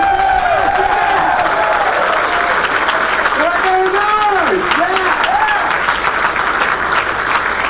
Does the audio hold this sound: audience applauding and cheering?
yes